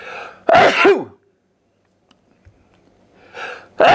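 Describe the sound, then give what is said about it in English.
Sneezes blamed on dust from a spinning hard drive: a loud, voiced burst that breaks off sharply, then silence, then another sneeze at the end, each one standing alone without talk. “I must be allergic to this hard drive. Or maybe it's because there's dust in this hard drive and I keep spinning it and I sneeze.”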